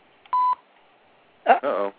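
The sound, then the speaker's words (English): A single short electronic beep from a streaming TV app: a steady, clean mid-pitched tone lasting about a quarter second. After a pause, a brief burst of talk follows. “Is that a Philo beep? That is a Philo beep.”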